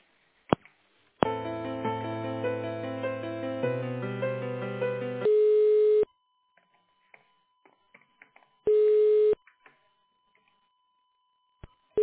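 A call is transferred to a personnel department, giving telephone line tones: a few seconds of electronic hold melody, then two steady ringback tones separated by silence, with a few faint clicks.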